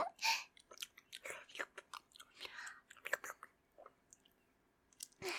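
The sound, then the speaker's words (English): Chewing on a bite of home-cooked food: many short, moist, crunchy bursts of biting and mastication in an irregular rhythm, fairly faint throughout. “Here, I'll take a bite too. I haven't tried it yet. Oh, that really is delicious.”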